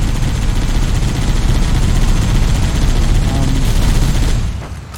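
Gunfire in a video game involving a sniper, a dense, loud, continuous barrage of shots that holds steady and then drops away at the end.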